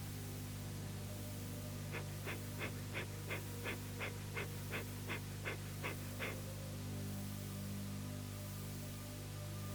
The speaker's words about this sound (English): look forward, and gently practice the Kapalabhati breath